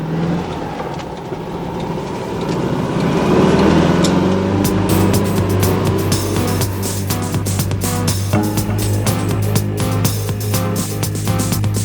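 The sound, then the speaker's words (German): A yellow Volkswagen Beetle pulls out of a harbor area at full throttle. The engine revs climb early, then settle into a loud, steady drone with many sharp clattering transients. “fühlten sich erst wieder sicher, als sie in Bobs gelben Käfer das Hafengelände mit Vollgas verlassen hatten.”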